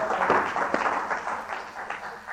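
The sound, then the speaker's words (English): Audience applause at a live event, a dense, steady wash of many hands clapping that carries on evenly throughout without a clear break. “Thank you. Let's give them a hand, all right? Concrete thinkers, one and all.”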